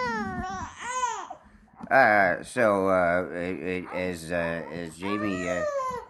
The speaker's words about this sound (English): As Jamie takes care of the fussing baby.